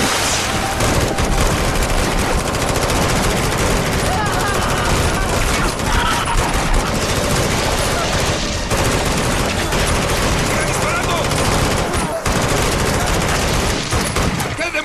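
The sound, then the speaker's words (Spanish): Repeated gunfire from soldiers' guns in a firefight, a dense, unbroken barrage of loud automatic bursts and shots that keeps going for about fifteen seconds. “¡Maldita cosa! ¡Sigue viva! ¡Ya le disparé 100 veces! ¡No muere!”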